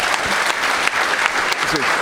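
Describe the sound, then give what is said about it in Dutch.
Audience applause for a guest, a dense, steady wash of clapping from many hands that stays loud and even from start to finish. “Geef hem een hartelijk applaus.”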